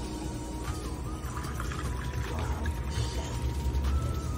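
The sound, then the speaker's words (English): Squirt grapefruit soda is poured into a Paloma made with fresh-squeezed grapefruit: a continuous fizzy, splashing pour that runs steadily for about four seconds, alone and without talk. “Then you're going to pop this squirt.”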